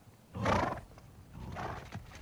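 A stallion neighs twice in fairly faint, breathy whinnies; the first call is louder, and the second follows after a short pause.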